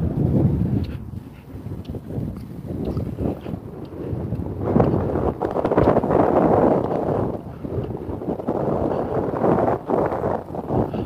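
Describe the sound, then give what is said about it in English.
Cold wind gusts outdoors and buffets the microphone, making a loud, rough rushing roar that swells and dips unevenly throughout, with no talk. “I got around the corner, that wind is frozen.”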